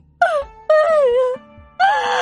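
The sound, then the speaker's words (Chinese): A mother in a dramatized story wails and cries in three long, loud moans that fall in pitch, separated by short breaks. “哎呀！董云芷一看自己娘哭了起来，马上跟着抱着母夜叉一起痛哭着。”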